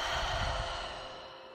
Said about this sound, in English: Breathe in. Exhale.